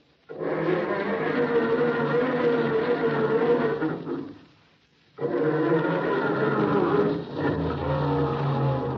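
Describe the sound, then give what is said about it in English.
A cold family car engine cranking and struggling to start on a chilly February morning: two long, loud stretches of grinding, churning starter noise, separated by a short pause, with no voices. “How's your family car starting these cold February days? Does it sound like this when Dad tries to start it in the morning?”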